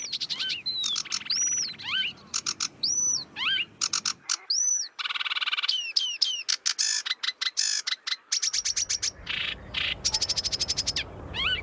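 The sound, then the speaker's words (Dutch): A sedge warbler sings among reed birds, a fast, continuous run of high chirps, whistles and rapidly repeated notes, loud and varied throughout with no talking. “Tussen alle andere rietvogels, de rietzanger. Ja, prachtig geluid. Heel snel. Toontjes die 4 tot 8 keer herhaald worden.”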